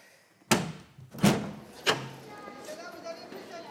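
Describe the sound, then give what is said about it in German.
A window being opened in a hot room: three distinct knocks and clunks in succession, the second loudest, followed by a faint rustle and soft scraping. “Ich werde das Fenster öffnen. Hier ist es sehr heiß.”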